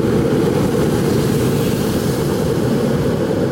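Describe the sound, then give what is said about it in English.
A jet aircraft flies overhead with a steady, loud, rushing roar heavy in the low end that holds evenly from start to finish, with no voices. “There was a jet going just as I was saying what it was.”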